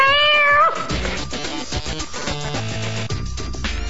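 A cat with folded-down ears gives a single loud meow that slides downward in pitch, then other sounds continue.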